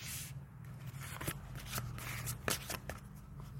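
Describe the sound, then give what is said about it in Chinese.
Tarot cards are shuffled by hand in a continuous, faint run of soft riffling and papery crackle, broken by several sharper snaps. No one speaks. “那我们首先先洗牌。好，我们洗三张牌”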